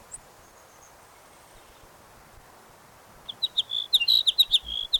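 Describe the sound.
A sparrow sings after a quiet, hissy stretch. In the final two seconds it gives a rapid series of high, buzzy chirps that grow louder as the song goes on.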